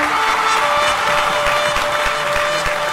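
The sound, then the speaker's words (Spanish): Applause mixed with crowd cheering, called for as a loud festive ovation, forming a dense, steady wash of clapping and voices that holds strong without pause for the full three seconds. “Que suenen las trompetas, los aplausos, las fanfarrias, las porras, los hurras, todo el ruido posible,”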